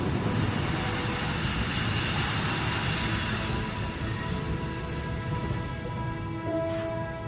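Train running on rails, a loud continuous rumble with thin, high wheel squeals sustained over it, easing slightly in loudness in the second half; no voices.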